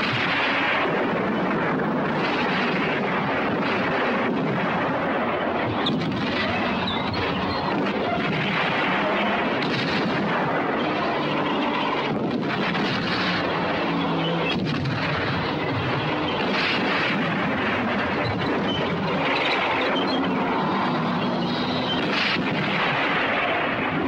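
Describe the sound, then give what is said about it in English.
Tank guns firing in a desert battle between Panzer tanks: a dense, continuous roar of heavy gunfire and booming blasts that keeps overlapping for the whole stretch without letting up. “Panzers fire back. The desert is raked with a catastrophically destructive battle.”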